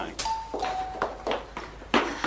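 A two-tone doorbell chime rings in an Iranian film scene, with the second tone slightly lower than the first, over a busy, noisy background.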